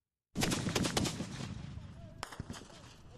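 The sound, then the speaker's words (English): Gunfire from Libyan government tanks and rockets turning back a rebel assault on the road to Sirte: loud, dense bursts of rapid shots and blasts that start abruptly, crowd together early, then thin into scattered cracks. “Libyan government tanks and rockets turning back a rebel assault.”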